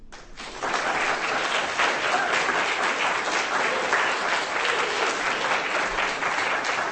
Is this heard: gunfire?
no